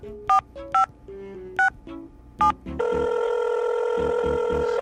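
Telephone keypad tones followed by ringing on a call to technical support: a few short, separate dial beeps at shifting pitches, then a steady, continuous ring tone that holds until the end.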